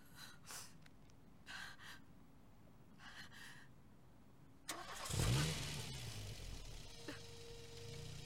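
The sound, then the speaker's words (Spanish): A car engine cranks and catches abruptly after a few faint breathy gasps, then revs loudly and settles into a steady running drone. “Enciende el motor.”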